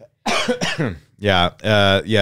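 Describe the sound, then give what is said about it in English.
Throat clearing close to the microphone by someone with a small cold, heard as two loud, voiced, rasping bursts separated by a short pause. “I got a small cold, but I'm getting over it, but I might be clearing my throat near the mic.”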